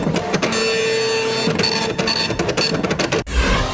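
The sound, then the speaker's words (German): A dot matrix needle printer logs each passage through relay-based equipment with a continuous rasping, buzzing print run, broken by short line-by-line stutters, then a brief pause and a final clunking burst. “Und jede Durchfahrt dokumentiert der Nadeldrucker.”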